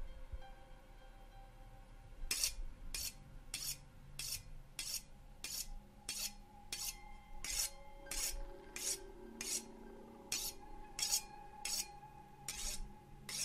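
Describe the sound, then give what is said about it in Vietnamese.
A knife is sharpened on a large stone slab propped on a wooden frame at night, giving many faint, evenly spaced rasping strokes in a steady rhythm that begin after a couple of seconds, over a low steady drone. “Là một cái phiến đá to được chống lên trên cái khung gỗ. Gã mài qua con dao, tiếng mài dao trong đêm, trong cái không gian quỷ dị này, nghe lại càng thêm ghê rợn.”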